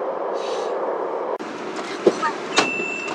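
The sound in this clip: Line 10 subway train arriving at Shilihe station: a steady rumbling roar, one sharp knock midway, a few light clacks, and a thin, high, sustained brake squeal near the end.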